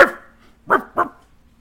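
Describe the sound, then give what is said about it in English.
Three short, sharp barks voiced for a gnoll, a dog-like creature: one loud yelp, a pause, then two quick barks close together, each a rough, husky burst. “He looks up at you, and then he looks back at the other two, and he barks at them.”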